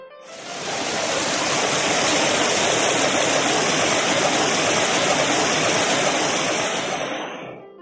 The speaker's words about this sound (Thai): หมู่เมฆกลั่นตัวเป็นฝนห่าใหญ่ฝนแรกสาดซัดหมูน้อย